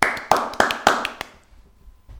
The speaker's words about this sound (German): Dementsprechend einen grossen Applaus für unsere Gewinnerin vom Wettbewerb Strohhüt.